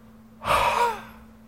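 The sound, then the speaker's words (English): A preacher's forceful exhaled breath, imitating Jesus breathing on his disciples: a single breathy rush of air lasting about half a second, fairly loud and with no talk. “And he breathed on them and he said, receive ye the Holy Spirit.”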